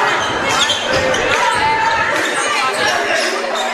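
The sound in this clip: Basketball bouncing during a game: dribble thumps blur into a continuous, loud din of crowd noise, with voices present throughout.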